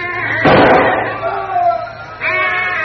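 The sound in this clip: A single sharp rifle shot bursts out loudly in a wartime radio drama set in a tropical pasture near jackfruit trees, with voices talking around it.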